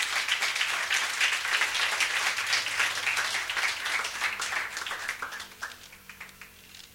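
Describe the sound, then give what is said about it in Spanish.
A church audience applauds during a sermon with brisk, crisp clapping that stays steady, then thins out and fades over the last couple of seconds. “Si usted le quiere dar un aplauso al Señor, déselo a Él.”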